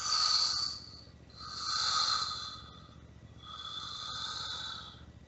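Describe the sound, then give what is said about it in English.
Slow exhales blown through pursed lips during a breathing exercise: three long, soft, airy hisses, each swelling and fading over about a second, separated by short quiet gaps. “Holding it, pursing your lips and blowing all the air out slowly.”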